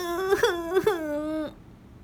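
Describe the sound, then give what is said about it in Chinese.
A voice acts out the whimpering cry of a young boy, Jerry, in a children's story. It is a wavering, moaning wail lasting about a second and a half, with two small sobbing catches before it breaks off. “杰瑞哭了起来。妈妈伸开双臂，杰瑞跑了过去，在妈妈的怀里哭啊哭啊。”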